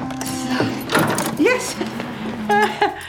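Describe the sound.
A workshop door is unlocked and opened: clicks and rattles with a few short, squeaky creaks, while people talk throughout.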